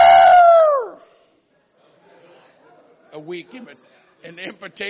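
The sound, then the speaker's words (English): A person's voice imitates a rooster crowing while retelling a Bible story. It is one short, loud, voiced call that slides downward in pitch and ends abruptly. A pause follows, then the person goes on talking. “a weak imitation of a rooster. The rooster crowed.”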